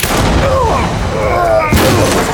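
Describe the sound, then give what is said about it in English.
A deputy's rifle shot, a sudden loud blast that breaks in partway through a dense, loud wash of noise. “Falcon saw Deputy Russell aiming a rifle at him. Russell missed, and Falcon drew before he could fire again.”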